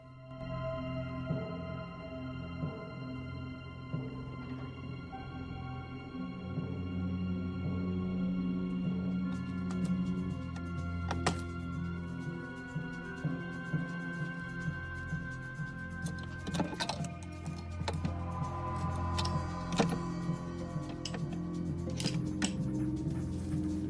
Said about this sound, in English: In the drawing room, he returns to the small chest and begins to pick the lock.